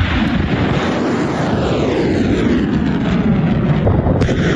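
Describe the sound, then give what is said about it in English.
U.S. missiles being launched create a loud, continuous rushing roar that holds steady from start to finish without breaks. No voices are heard over the sound. “Those are U.S. missiles launched in the opening phase of the operation.”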